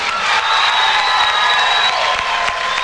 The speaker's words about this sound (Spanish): ¡Fuerte el aplauso para esta banda!